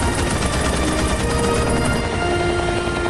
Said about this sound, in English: Beside them, a machine gunner continues cover fire.